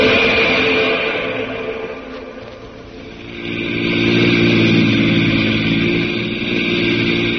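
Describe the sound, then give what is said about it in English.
Engine drone of an army jeep driving over rutted hills in California. It runs steady and loud, dips briefly midway, then swells back up and holds, with no voices. “Now to an army jeep in the hills of California and Jungle Jim.”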